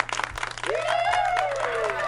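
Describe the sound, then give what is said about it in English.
A live studio audience cheers and applauds as a band dressed as robots is welcomed, with quick bursts of clapping at first and then sustained applause with voices over it. “Live studio audience oh, wow. is going crazy for you guys.”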